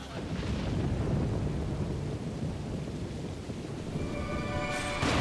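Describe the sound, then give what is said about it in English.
Heavy rain lashes down and forms huge puddles, a dense, steady hissing wash with a rumbling low end that holds throughout, while faint tonal notes enter near the end. “Littlefoot looks despondent as the rain lashes down, forming huge puddles”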